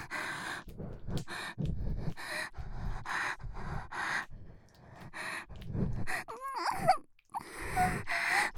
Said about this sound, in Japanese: 漏れ出る鼻息まじりの荒い呼吸。